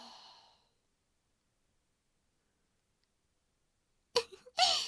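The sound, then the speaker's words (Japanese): Slow, soft breathing, in and out: a faint breath tails off at the start, a long stretch of silence follows, then two short, airy sigh-like breaths come close together at the end. “吸って、吐いて。”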